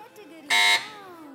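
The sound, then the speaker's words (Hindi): A quiz show answer buzzer sounds as a madrasa team presses in: one loud, harsh electronic buzz lasting about a quarter second, with speech around it. “Buzzer बजाई है मदरसतुल Medina की team ने।”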